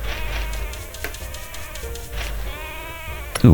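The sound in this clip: Sheep bleat in a video game while a player counts the flock. A few wavering, nasal bleats rise over a steady background hum, with a short sharp sound right at the end.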